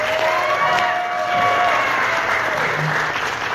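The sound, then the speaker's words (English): Audience applause breaks out as a guest expert is brought onto a comedy show: dense, steady clapping that stays loud and even for the whole stretch. “Put your hands together for Bill Skaggs.”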